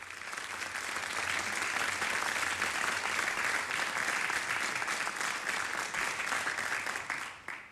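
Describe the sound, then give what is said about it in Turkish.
Applause from a studio audience welcoming the conductor at a radio concert, a dense, steady roar of many hands clapping at constant loudness for several seconds, then tapering off at the end. “Alkışlarınız şefimiz için.”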